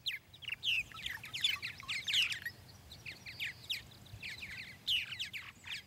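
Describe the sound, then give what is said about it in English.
Purple martins calling at twilight at Hammonasset State Park, Connecticut: many high, chattering chirps and warbled notes in quick clusters over a low, steady rumble, with a brief lull midway before the calls pick up again. “Writer Mark Seth Lender recorded these purple martins at Hammonasset State Park in Connecticut, where their nest boxes are maintained by the Monongatuck Audubon Society.”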